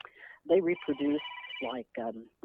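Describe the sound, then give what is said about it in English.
A mobile phone rings with a bright, repeating electronic tone during an interview, layered over a speaking voice; the ringing is meant to be switched off. “So I am so sorry. I thought I had that phone off.”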